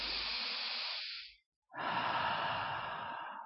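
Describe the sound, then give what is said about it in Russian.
A deep breath taken during a guided chakra meditation: two long, soft, breathy rushes of air separated by a brief silent pause. No talking is heard. “Теперь сделайте еще один глубокий вдох”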